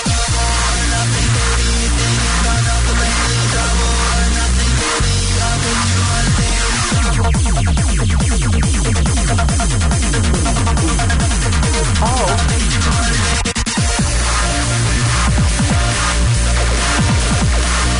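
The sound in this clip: A deliberately messy cringecore song plays loud and dense, with a busy, clashing mix of instruments that shifts into a grittier, buzzing passage partway through.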